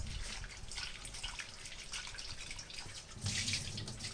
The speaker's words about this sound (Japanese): ミニトマトはヘタを取ってから洗います。ヘタの周り結構汚れがついているので、ヘタを取ってからお水で洗います。